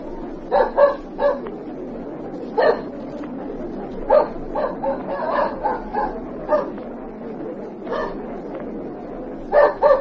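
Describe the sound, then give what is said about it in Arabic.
A tracking dog barks many times while circling a line of suspects, giving short, sharp yaps and barks in irregular bursts with quiet gaps between them. “الكلب لف حوالين طابور الاهالي مرتين من غير ما يطلع حد.”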